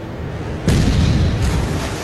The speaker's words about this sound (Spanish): El Yamato lanza el primer ataque. Sus potentes armas disparan al portaaviones estadounidense Gambier Bay y lo hunde.